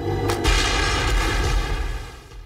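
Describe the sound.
An underwater demolition explosion from a film soundtrack gives a loud, sustained, rumbling roar with a deep boom. It churns for about two seconds before fading, with no voices.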